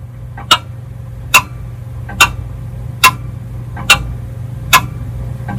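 A pendulum clock ticks in a steady rhythm: crisp, sharp ticks under one second apart, evenly spaced and alone over a low, constant hum.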